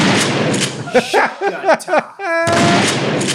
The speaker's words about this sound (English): Okay, so we have the coolest shotgun reload in history, yes?